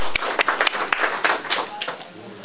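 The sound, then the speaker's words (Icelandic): An audience claps for newly elected committee members: a few sharp claps stand out over a patter of applause, and people talk throughout before the sound thins out near the end. “gott að klappa sjálfsögur fyrir þeim”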